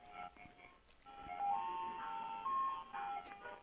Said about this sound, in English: Oh my God. It's parked right outside our apartment. It's coming by. Okay, it's going away. It's driving out. It's leaving. Can you believe that? We never, ever, ever have an ice cream truck.